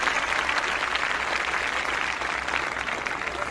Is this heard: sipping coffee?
no